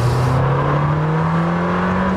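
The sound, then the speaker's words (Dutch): A V8 sports car engine accelerates, a loud continuous low drone whose pitch climbs gently over the couple of seconds, heard alone with no voices. “Helaas de V10, hè, die we kennen uit de Gallardo en de Huracan en een paar Audi's. Die is er niet meer, maar ze hebben het goed gemaakt, deze V8.”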